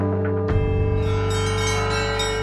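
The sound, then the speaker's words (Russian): Church bells ring at a bell-ringing festival on a sunny weekend morning in a small town. A steady ringing tone gives way to a strong strike about half a second in, and rich, layered partials ring on loudly. “Утро солнечного выходного дня в главном городе Воскресенского Благочиния началось с бодрого колокольного звона.”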